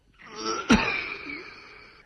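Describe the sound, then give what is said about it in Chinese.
A man's violent coughing fit, harsh enough to knock him flat and bring up blood: a strained, wheezing rasp with one sharp, explosive cough burst in the middle, trailing off into a drawn-out wheeze. “田福堂说着，一阵猛烈的咳嗽使他一个马趴跌倒在了破念坛边上。”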